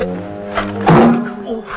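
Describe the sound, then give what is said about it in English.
A head bangs against a boiler: one sudden, dull thunk that stands out briefly, with a voice heard around it. “He bangs his head on the boiler and gets out of the bath.”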